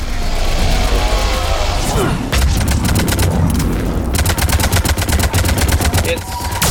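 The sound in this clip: A harvester blows up in a video game with a loud, booming blast, then a dense, rapid crackle of machine-gun-like bursts that keeps going to the end.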